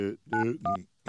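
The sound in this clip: A few short electronic beeps from a telephone keypad as a number is dialed live on air, starting with 9 for an outside line. The steady touch tones come in quick succession with brief gaps between them.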